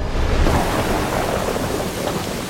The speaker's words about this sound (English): The slow-motion rain falls onto the ground, turning the soil to mud.